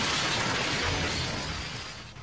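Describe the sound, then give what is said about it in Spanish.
A bus crash: a loud, harsh burst of shattering, crunching noise that thins out and fades across about two seconds, with no voices. “Chocó la micro, ¿ah? ¿Eh? Sí, chocó la micro.”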